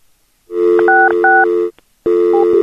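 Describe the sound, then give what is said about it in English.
Telephone dialing tones sound on a phone line: a loud, steady tone carries a few brief dual-pitch beeps, breaks off into near silence, then resumes with another short beep. “She was dialing. She didn't hang up. She picked back up. She tried to dial.”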